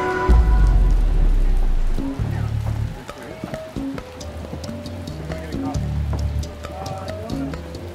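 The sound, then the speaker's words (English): Rain lashing down on a roof makes a dense, steady hiss of drops, loudest at the start and then continuing beneath people talking. “That noise you can hear in the background, by the way, is the rain lashing down on the roof.”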